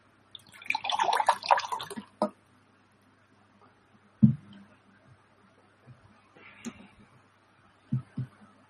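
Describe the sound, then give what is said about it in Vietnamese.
Someone drinking a sip of water: a burst of slurping, pouring-like noise lasting about a second and a half, then a few soft gulps and small clicks, with no talking. “Xin phép mọi người mình uống miếng nước.”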